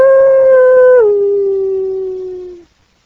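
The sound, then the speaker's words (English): A human voice imitates a coyote howl with one long, loud, tonal note. The pitch steps down after about a second, then slowly sinks and fades out. “that wasn't nothing but a coyote”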